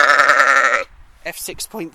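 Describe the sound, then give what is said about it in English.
Sheep bleating: one loud, long, wavering bleat, then a person speaks in short bursts after a brief pause. “I don't know how this is going to work with all these sheep noises in the background.”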